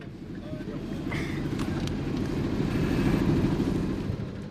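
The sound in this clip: A military vehicle drives in Mali, its engine giving a steady low rumble mixed with road noise that swells gently toward the middle and eases off at the end.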